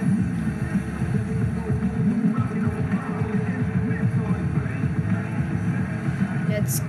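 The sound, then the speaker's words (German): Jet ski engines drone steadily as the watercraft ride over a ramp on water, a dense, even motor hum with no clear breaks, while people talk over it. “Da fahren sie, die kleinen Kid Kiddies. Die Jetski-Kiddies über eine Schanze”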